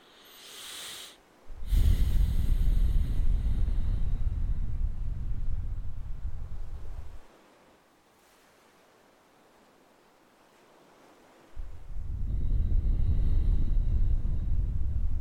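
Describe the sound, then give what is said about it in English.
Slow, deliberate conscious breathing, loud and airy: a short breath, then a long breath of about five seconds, a few seconds of silence, and another long breath beginning. “Let's take a few conscious breaths while I try to think here.”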